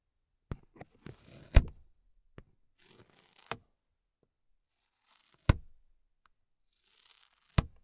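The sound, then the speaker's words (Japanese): Fingers patting a strongly sticky white sticker: sharp tacky clicks with brief crackly peeling sounds between them, spaced irregularly and heard alone. “この白い部分、 実はシールなんだ。ほら、指でペタペタすると、”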